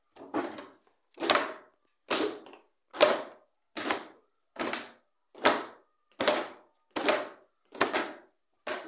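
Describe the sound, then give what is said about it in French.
A pestle pounds in eleven evenly spaced strokes, roughly one per second. Each is a short, fairly faint, sharp knock with a brief decay, separated by silence. “Maura poursuivit sa besogne. 1, 2, 3 coups de pilon.”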